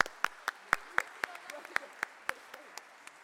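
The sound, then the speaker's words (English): Round of applause in church for children after a contest: a thin, steady run of about a dozen evenly spaced claps, fairly quiet, with faint voices in the background. “I think you both win, and we should give you a round of applause.”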